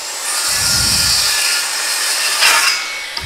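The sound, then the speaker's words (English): A saw cuts through a five-foot length of 2x4 lumber with a loud, harsh, steady rasping whine that lasts about three seconds and swells briefly near the end. “All right, so what I'm doing is about to cut the 5 foot length 2x4.”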